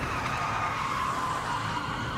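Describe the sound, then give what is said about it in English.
Tires squeal as a top-heavy van skids and spins out after clipping a car, a loud, sustained screech with a noisy roar underneath and no pauses. “This spin out was unavoidable once the top heavy van clipped that car.”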